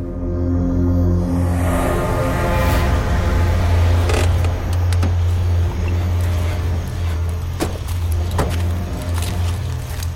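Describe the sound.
A car being driven hard, with a loud, continuous low engine drone running throughout alongside road noise and scattered faint clicks. No one speaks.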